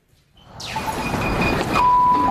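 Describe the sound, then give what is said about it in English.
A high school bell rings to start the day, a sustained metallic, buzzing clatter that rises out of near quiet and holds steady and loud to the end. “At Westbrook High School, the day starts with a bell.”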